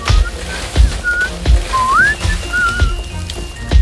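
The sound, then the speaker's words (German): Someone whistles a tune in a few short notes, one gliding upward, over a rough, rain-like background with soft thuds. “Wie kann er pfeifen? Sind die Äste nicht schwer für ihn?”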